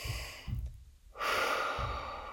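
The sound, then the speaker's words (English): A long, deep breath rushes out loudly on its own, a breathy hiss of air with a brief hush partway through and no talking. “I'll take a deep breath with you guys again.”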